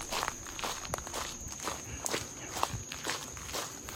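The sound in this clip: Footsteps on an outdoor morning walk, soft and fairly quiet, landing in a steady, even rhythm of many strides, with a constant high-pitched tone running underneath.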